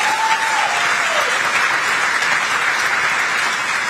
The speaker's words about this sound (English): he says it for applause. Now he's just going to sit there and not move as they clap for him.